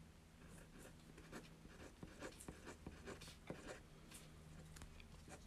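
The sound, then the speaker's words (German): Scratchy writing on paper as a letter is written: a quiet, uneven run of many short strokes and scrapes over a faint steady low hum, with no talking. “das habe ich jetzt geschrieben.”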